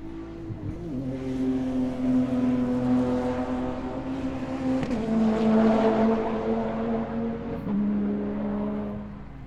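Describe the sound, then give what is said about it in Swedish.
Porsche GT3 RS engine runs at a racetrack, a steady, throaty harmonic drone that dips in pitch a couple of times. No voices. “Så, då står vi här med någon som kör en Porsche GT3 RS.”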